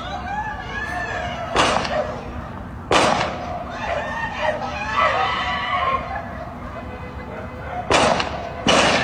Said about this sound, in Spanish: Y siguen disparando. No son policías los que disparan, son los delincuentes.